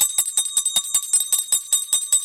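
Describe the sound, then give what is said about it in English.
Sleigh bells ring in a bright, steady jingle. Many evenly spaced shakes repeat at a brisk rhythm. The bells are heard alone, with no talking. “So I think it's time that the sleigh bells ring”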